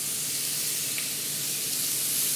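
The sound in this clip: Steaks for tagliata di manzo sear in a hot pan in a restaurant kitchen, giving a loud, even sizzling hiss that runs without a break.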